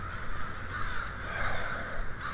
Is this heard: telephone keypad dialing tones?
no